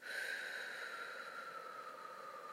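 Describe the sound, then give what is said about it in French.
A slow, gentle exhale through the mouth, as if breathing out through a straw, makes a soft, steady, airy hiss that holds evenly for one long breath and is quiet throughout. “vous soufflez doucement par la bouche, comme si vous expiriez dans une paille, ce qui fait, ça fait, c'est très doux en fait, ça fait...”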